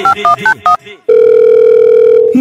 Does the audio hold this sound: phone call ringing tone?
yes